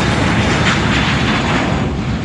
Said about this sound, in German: Das ist ein Düsenjet. Der startet gerade.